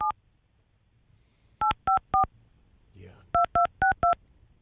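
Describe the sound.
Telephone keypad dialing tones: eight short, loud beeps, a single tone, then three quick ones, a brief soft noise, then four more in steady rhythm.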